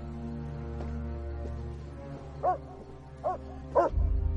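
A dog at a mountain cabin shelter barks three times, short and fairly sharp, spaced about a second apart over a steady low hum, with a deep rumble rising at the end.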